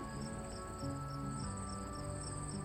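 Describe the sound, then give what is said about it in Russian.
Crickets chirp through a summer night in a steady, unbroken chorus of high, pulsing trills, with soft low tones lingering underneath. “Появляются звуки летней ночи.”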